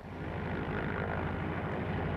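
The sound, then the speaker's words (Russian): A seaplane's propeller engine roars as the aircraft takes off, a steady, dense droning rumble that holds at an even level throughout with no voices. “Лунин понял, что гидросамолет погибнет, если сейчас же не взлетит. И гидросамолет взлетел.”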